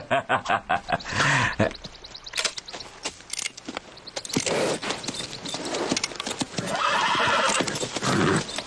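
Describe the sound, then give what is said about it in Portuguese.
Horses whinny and their hooves clip-clop in a busy mix, with a long harmonic neigh early on and many sharp hoof and tack clatters running loudly throughout. “Os cavalos devem estar enlouquecidos, né?”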